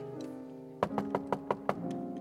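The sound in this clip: Knocking on a door: a quick series of several sharp, hard raps, evenly spaced over about a second, heard over a steady, sustained tonal hum.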